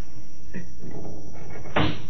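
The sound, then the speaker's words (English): A window is opened with a few wooden clunks and scraping knocks, ending in one louder, sharper knock. “Open the window, will you? It's hot in here. It ain't a bit hot. You've been drinking too much. Open it anyway.”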